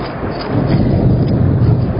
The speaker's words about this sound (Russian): гроза разыгрывается